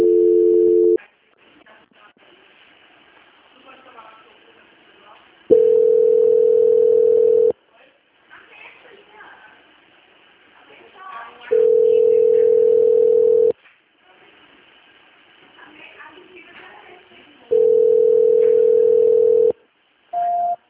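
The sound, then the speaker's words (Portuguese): Telephone line tones sound as a call fails to connect: several steady mid-pitched tones, each lasting about two seconds, repeat with gaps between them, and quiet murmured talk fills the pauses. “Eu tô tentando ligar pra lá, só que lá provavelmente tá ocupado, aí a ligação fica voltando.”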